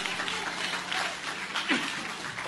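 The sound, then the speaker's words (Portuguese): Congregation clapping during a church service: steady, dense clapping from many hands running throughout at an even level. “Bate palma para Jesus.”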